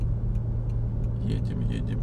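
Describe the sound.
Car driving on a road on December 31: a steady low engine and road rumble runs throughout, with faint talking over it.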